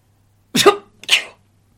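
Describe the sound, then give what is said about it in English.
A sneeze bursts out in two quick, sharp blasts of breath, loud against silence on either side. “I think that was just a sneeze, wasn't it? Yeah, it was just a sneeze.”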